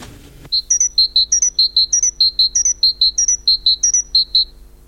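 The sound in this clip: A great tit sings a long run of high, piercing two-note phrases repeated in a steady, rapid rhythm. The clear song follows a brief noisy burst at the very start.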